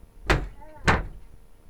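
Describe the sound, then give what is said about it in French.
Two sharp door slams about half a second apart as villagers barricade themselves in their houses on a night of ghosts. Each slam is a short, heavy thud with a brief rattle, and the gap between them is quiet. “C'est le bruit du barricadage.”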